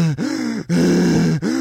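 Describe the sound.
A voice imitating an out-of-breath woman panting after climbing stairs: three drawn-out, groaning voiced breaths, loud and strained, separated by brief gasping gaps.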